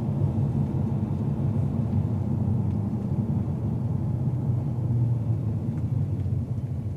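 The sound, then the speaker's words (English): A car drives through a small town, a steady low engine and road rumble that holds evenly throughout with only slight dips, no voices heard. “So today, right now, we're going to drive a little bit through a small town.”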